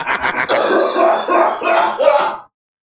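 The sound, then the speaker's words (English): A voice imitates choking and coughing: a few short throaty bursts, then sustained, strained, rasping vocal heaves that run loud and unbroken for about two seconds before stopping abruptly. “Excuse me, that reference had just caused a bunch of oil to well up inside of my throat. Excuse me while I choke.”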